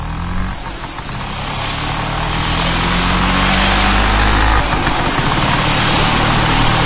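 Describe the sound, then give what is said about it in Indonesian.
A motorcycle engine runs after being started and left to warm up before riding off. It makes a loud, steady, rough drone that grows a little stronger partway through, with no voices. “Aku menyalakan motorku, memanaskannya dulu sejenak, lalu tancap gas pulang.”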